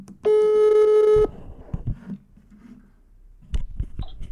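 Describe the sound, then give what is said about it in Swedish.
A telephone tone from an outgoing call sounds as one steady, loud electronic beep lasting about a second. Near quiet follows, with a few faint low clicks and knocks. “så jag har alltså ringt upp Christer Fuglesang, den första svensken i rymden”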